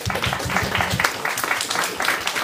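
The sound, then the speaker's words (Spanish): An audience applauding at a live show with contestants, many overlapping claps in a steady dense patter, fairly loud and unbroken, with no voices standing out. “Un aplauso, yo les doy un aplauso a todos ustedes por aguantarnos.”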